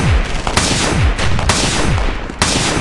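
Revolver gunshots firing the last rounds in the cylinder while pinned down behind a car in a gunfight: a few sharp, loud cracks stand out over a dense, continuous roar of battle noise.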